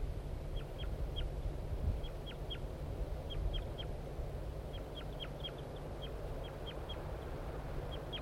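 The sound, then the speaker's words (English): Flight calls from a male bird perched in a tree near the nest where the female sits: many short, high, faint chirps come in quick clusters over steady low background noise. “I think the female's on the nest and the male's giving flight calls from the tree nearby.”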